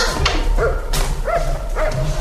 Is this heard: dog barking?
yes